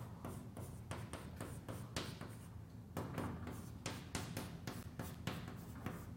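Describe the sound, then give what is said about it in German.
The letter G is written by hand in many faint, scratchy strokes and taps that come in an uneven rhythm. “Ja, man schreibt jetzt das G”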